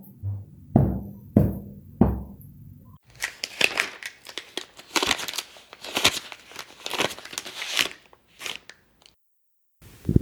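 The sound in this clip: A golden envelope is opened with paper crinkling and rustling: a long run of many crisp, crackling rustles of varying loudness, broken by brief pauses.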